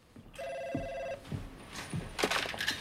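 A telephone rings in one sustained electronic burst of under a second, followed by a few low thumps and soft rustling noises.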